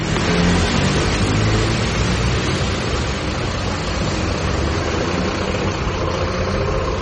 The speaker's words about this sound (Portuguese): É no terminal integrado de Camaragibe, um dos principais pontos de integração da região metropolitana, que começa a nossa reportagem.